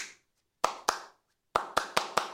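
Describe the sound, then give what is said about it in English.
Bare hands clapping a simple rhythm: two sharp claps, a short pause, then five quicker claps, crisp and alone with no talk. “200 years later, I just clap you the rhythm.”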